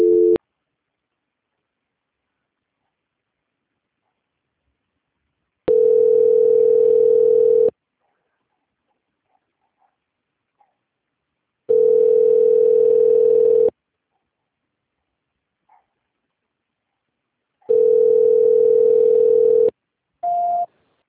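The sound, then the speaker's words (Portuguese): A telephone ringback tone plays while a call is transferred to an extension. Three steady two-second tone bursts are separated by about four seconds of silence, with a clipped tone at the start and a short, higher tone at the end. “Só um momentinho, tá? Que o Ramal vai atender agora. Transferência.”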